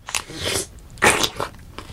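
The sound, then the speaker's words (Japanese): Crunchy, juicy bites into a freshly picked tomato with a thick, slightly sour skin: a few short bursts of wet crunching, the loudest in the middle, with quieter chewing between them. “取れたてのトマト、ちょっといただきますね。”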